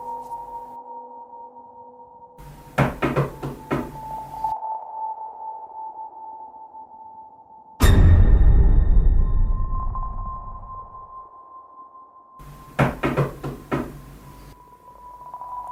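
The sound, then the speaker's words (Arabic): Knocking on a door in a horror drama: two quick series of sharp knocks over a sustained eerie tone, with a heavy booming hit between them that slowly fades away. “خبطة الباب كانت مميزة جدا”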